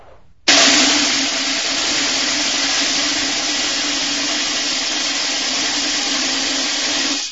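Five hundred BBs pour into a metal soup pot, making a dense, continuous metallic rattle. It starts abruptly, holds steady and loud for about seven seconds, then cuts off.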